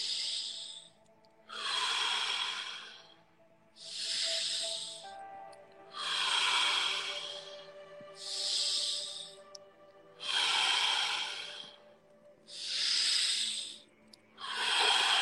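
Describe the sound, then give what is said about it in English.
Slow breathing in through the nose and out through the mouth during a guided meditation, with many soft, hissing breaths in a steady, even rhythm separated by brief pauses, without talk. “Inhale through the nose. Exhale out of the mouth.”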